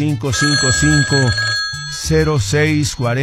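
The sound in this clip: A telephone rings continuously, its steady bright tones running under a voice for the whole stretch.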